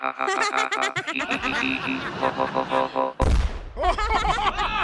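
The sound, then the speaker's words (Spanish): A sudden, loud explosion sound effect for a robot blowing up bursts in past the midpoint, set between lively stretches of voices and laughter. “¡Se explotó! ¡Explotó mi robot! ¡Estalló el güey!”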